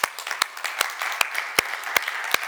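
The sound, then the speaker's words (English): A church audience applauds, a steady wash of clapping with a few sharp, louder claps standing out at irregular intervals. “But I'd like just to really quickly just give the Lord a round of applause for his goodness to us”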